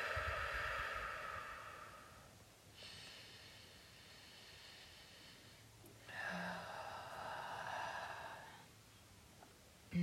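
A person takes deep breaths: two long, airy, breathy swells separated by a quiet gap, faint and heard alone without talk.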